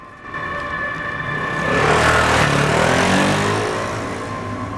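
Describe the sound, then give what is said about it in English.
A motorcycle riding past in a narrow street, its engine noise swelling to a peak in the middle and then fading away as it goes by. “Gina walking down the narrow street, alarmed as a motorcyclist drives past her.”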